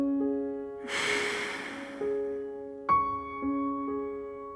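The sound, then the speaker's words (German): A slow breath during a guided self-touch session: one soft, airy exhale-like rush of about a second, followed later by a faint click, over quiet sustained musical tones. “Atme ein und aus.”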